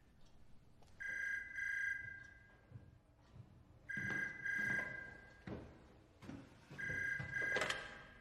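A telephone rings unanswered in three separate bursts, each a bright electronic double trill followed by a pause, with a few soft thumps in between.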